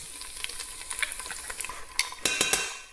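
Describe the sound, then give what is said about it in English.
Stirring scrapes and a steady sizzle come from pesto being heated with oil in a pan, with quick clicks of the spoon throughout and a few louder scrapes near the end. No voices. “Just roughly heat up the pesto. Maybe bring up some of the flavor, maybe a bit more oil actually.”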